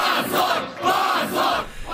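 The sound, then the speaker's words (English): A dense crowd of mostly twenty-somethings chanting the word "shame" outside a courthouse after a court decision, loud rhythmic shouts that swell and repeat over and over. “I find videos of a dense crowd of mostly 20-somethings gathered outside the courthouse. They start chanting the word shame over and over in response to the court's decision.”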